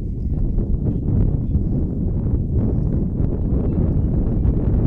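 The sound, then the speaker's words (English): Wind gusting outdoors at a softball game, a steady low rumbling roar buffeting the microphone for the whole stretch with small surges but no clear breaks. “the wind is just whipping around.”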